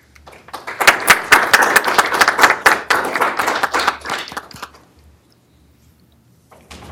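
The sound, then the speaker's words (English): Brief, moderate applause from an audience welcoming a student speaker. Several seconds of clapping taper off into near silence, and a faint sound follows at the end. “So let us welcome Akshar to speak.”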